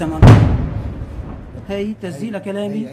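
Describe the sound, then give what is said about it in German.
An artillery shell explodes close by in Aleppo: one sudden, heavy boom that decays over about a second, followed by a man speaking. “Siehst du, sagt Mohammed, das haben wir hier jeden Tag. Das war gleich nebenan. Mal wird eine Granate abgefeuert, dann schlägt kurz drauf eine ein.”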